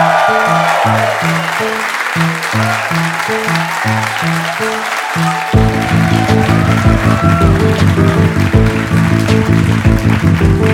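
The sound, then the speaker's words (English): Audience applause welcomes performers from Melbourne, Australia onto the stage: a dense, steady wash of clapping that swells louder about halfway through, with music playing underneath throughout. “Could you please put your hands together and welcome to the stage all the way from Melbourne, Australia, it's Do Go On!”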